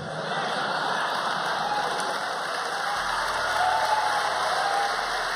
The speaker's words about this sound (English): Listen to that applause as Kobe